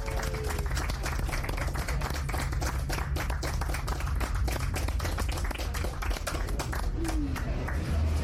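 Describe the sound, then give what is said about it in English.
Audience applause at a live event as people are welcomed back and asked to give themselves a hand: dense, steady clapping that fills the whole stretch at an even level. “Welcome back, everyone. Give yourselves a hand.”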